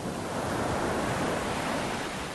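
Ocean waves break on the shore in a continuous, loud, hissing roar. The broad wash of surf stays steady throughout, with no distinct single crash standing out.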